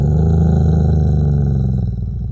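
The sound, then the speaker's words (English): A human voice imitates a wolf's growl while telling a children's story: a loud, low, rough rumbling growl sustained for about two seconds that eases slightly at the end. “he saw the wolf coming up the hill towards him. And with his big claws, and his big teeth, and his angry eyes, and his growly voice,”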